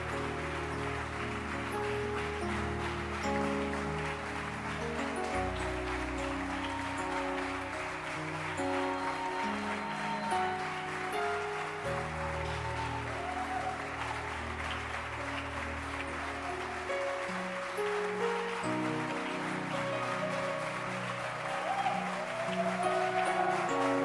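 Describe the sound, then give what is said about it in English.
Church audience clapping their hands during a service, a continuous patter of many hands over sustained keyboard chords, holding steady for the whole stretch. “are you sure you are happy to be in church? Then clap your hands. Show that you are happy.”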